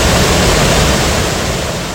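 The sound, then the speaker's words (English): A swollen stream grown into a river rushes past with a loud, steady roar of water, a dense hiss with no pauses or breaks. “This is basically a river at this point. It's not a stream anymore. And it is rushing.”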